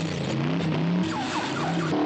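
A car buried in a snow pile after crashing tries to reverse out: a low, steady engine drone runs throughout, joined in the second half by a few short, sweeping tire squeals.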